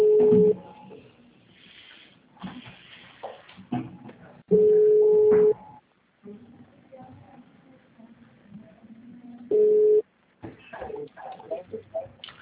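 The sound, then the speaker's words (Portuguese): A telephone call rings out on the line: three long, steady, mid-pitched ringback tones spaced evenly several seconds apart, with faint background sounds between them. “Acho que é melhor ligar do seu número, pra ele só ver que é você.”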